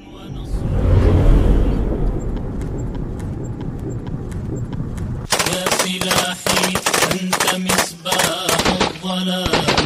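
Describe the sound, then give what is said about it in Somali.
Gunfire from various weapons rings out as militants attack soldiers stationed at a checkpoint. After a rumbling opening, rapid, dense bursts of automatic fire suddenly fill the second half, loud and sustained. “qayba hore ee filmka kooban waxaad ku arkaysaa ciidamada military xarakada mujaahidiinta Al-Shabaab oo rasaasna noocyada kala duwan oo dhakay qaaday askarta isbaarada joogtay”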